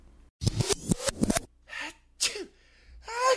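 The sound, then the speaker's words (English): A sneezing fit: a few sharp, breathy sneezes follow one another in quick succession, some with a voiced, throaty onset, with no talk around them. “Who's having a sneezing fit?”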